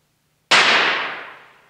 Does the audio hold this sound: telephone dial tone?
no

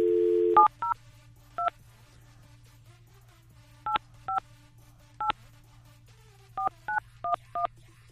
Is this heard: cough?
no

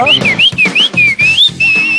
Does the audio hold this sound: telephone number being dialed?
no

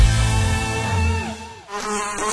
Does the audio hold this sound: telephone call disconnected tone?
no

